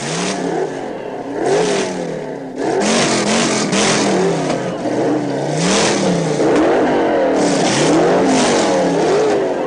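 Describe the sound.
Drag racing cars, one of them an Oldsmobile, launch at the green light in a heads-up race between the top two qualifiers. The engines roar loudly and without a break, their pitch climbing and dropping again and again as they rev hard.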